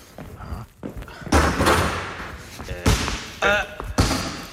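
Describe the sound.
A basketball is bounced by a player training for his next game. Several heavy, irregularly spaced thuds each carry a short ringing decay over a low background murmur.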